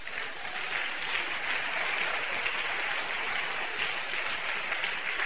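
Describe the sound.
Congregation applauding during a church service: a fairly soft, continuous rush of many hands clapping together that stays even throughout, with no single claps standing out.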